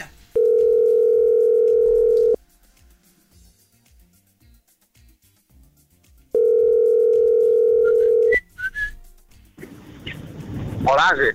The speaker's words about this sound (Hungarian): Hívjuk a naphallgatóját már is? Úgy tűnik, igen. Úgy tűnik, hogy tárcsáztuk.